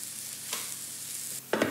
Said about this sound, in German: sind schon in der Pfanne und braten langsam vor sich hin.